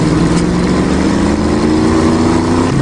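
A twin-turbo 327-cubic-inch V8 show car revs hard as it accelerates, a loud, continuous engine roar whose tone climbs gradually throughout, with no voices over it.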